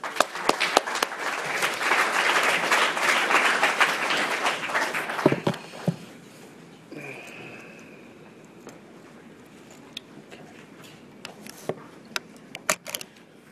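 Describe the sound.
Audience applause welcomes a speaker at an Alcoholics Anonymous gathering: loud, dense clapping for about five seconds, then it drops away quickly, leaving a few scattered claps and faint shuffling.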